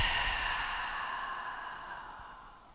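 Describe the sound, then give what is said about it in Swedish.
A deep breath let out slowly in one long, airy exhale. It starts fairly loud and fades gradually over nearly three seconds, with no voice. “ta ett djupt andetag in genom näsan. Och håll andan en liten stund och släpp ut andetaget.”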